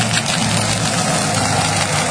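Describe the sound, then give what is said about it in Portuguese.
Steady engine rumble of a heavy machine arriving at a eucalyptus farm on steep, tree-covered ground, a loud, even idling drone with a faint knocking texture and no clear change in pitch. “Chegada da máquina. Tá acelerando tudo em volta aqui”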